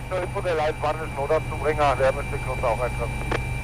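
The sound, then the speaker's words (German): A rescue helicopter lands in a meadow beside a road at an accident scene. A steady low engine drone runs throughout beneath people talking. “Der Lions 1 landet auf einer Wiese neben der Straße, wo der Unfall passiert ist.”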